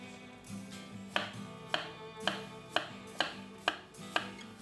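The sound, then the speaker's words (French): A knife slices peeled potatoes into thin rounds, meant for a puff pastry dish. About eight crisp, evenly spaced chops fall roughly every half second, quiet over a faint steady hum. “Maintenant, je vais les couper finement en rondelles pour que je puisse les mettre après dans la pâte feuilletée.”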